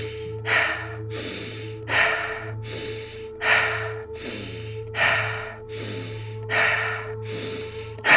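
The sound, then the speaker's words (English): Continuous breathing with no pause between inhale and exhale: many steady, rhythmic breaths that rise and fall at an even pace over a low sustained tone. “No pause between the inhale and exhale.”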